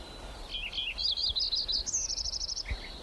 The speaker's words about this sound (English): Lincoln Sparrow number 2.